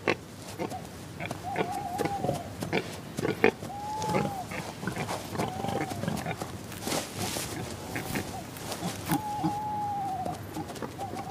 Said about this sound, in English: Wild boar have terrible eyesight, even in daylight. So they use smell to find their way and their food in the pitch black.